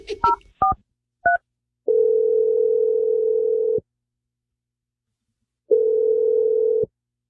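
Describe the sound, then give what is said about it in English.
Telephone keypad tones sound as a call is placed: a few short beeps, then two long, steady ringing tones separated by a silent pause. “I'm dialing Josh's number right now. Hopefully he picks up.”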